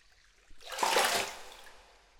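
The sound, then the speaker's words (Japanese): Hot water poured for washing the body: a soft, brief splash that swells and then fades, faint and heard alone. “すごい、あったかいお湯。いつも井戸水で体を洗っていたから勝手がわかりません。”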